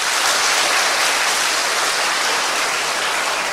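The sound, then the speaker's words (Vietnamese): Audience applause from children at a Buddhist teaching session: a dense, continuous wash of clapping, loud and even from start to finish, with no clear breaks or voices. “Giỏi lắm, cho một tràng pháo tay.”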